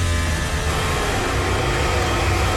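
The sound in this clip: A Formula 1 car roars past during third practice at the Hungarian Grand Prix, its engine a loud, steady, dense howl that holds for the whole short stretch.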